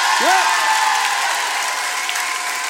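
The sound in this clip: Concert audience applause at an anniversary concert in Roanne: dense, steady clapping that fills the whole stretch at an even loudness, with a short whistle ringing out near the start.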